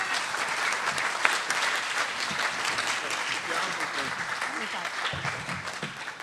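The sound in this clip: An audience applauds as two guests are welcomed to the stage, a continuous wash of clapping that holds a steady level from start to finish.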